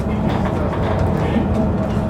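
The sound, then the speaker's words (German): A Berlin underground train on the U8 line rolls along with a steady, unbroken rumble, dense low-frequency roar and hiss that holds an even loudness throughout. “Also die U8 kenne ich. Die fährt quasi auch runter bis zum Alex.”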